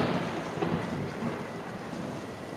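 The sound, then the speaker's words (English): Low, rolling thunder of an approaching storm blends with a steady hiss like rain. The sound is continuous and fairly faint, with no voices. “The storm is approaching.”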